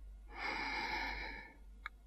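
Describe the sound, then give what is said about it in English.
A single long, steady breath during a guided relaxation exercise: a soft, airy hiss lasting just over a second, then a brief faint click. “And again, in and out. And once more, breathing in”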